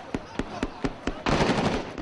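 Gunfire from police firing back at gunmen who attacked pilgrims in a southern Baghdad suburb: five sharp, evenly spaced shots ring out, followed by a sudden burst of dense, continuous noise.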